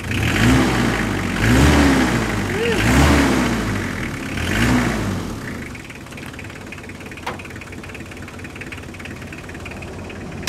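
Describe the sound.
An engine is revved hard under throttle several times, its pitch swelling and falling in loud surges, then it drops back to a steadier, quieter idle with a lone sharp click near the end.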